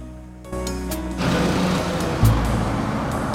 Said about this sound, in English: Once in her car, she tears off out of the driveway.